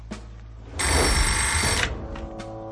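A telephone bell rings once, a loud, dense metallic trill lasting about a second, with nothing else around it and no talk.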